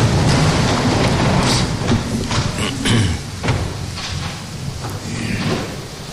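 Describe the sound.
A church audience rises for the Gospel reading, making a continuous loud rustle and shuffle of movement broken by several dull thumps and knocks, with no one speaking.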